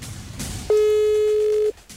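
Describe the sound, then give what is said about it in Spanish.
A single steady ringback tone from an outgoing telephone call, loud and mid-pitched, lasting about one second, with quiet line noise before and after. “La primera llamada es esta.”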